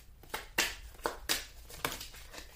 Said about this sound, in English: I'm going to take one more card.